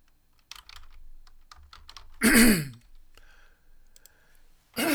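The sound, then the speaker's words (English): A single loud, raspy throat clearing to clear phlegm, one brief rough burst standing out among faint, scattered keyboard clicks and typing. “excuse me, I can't talk when there's a whole lot of phlegm in my throat.”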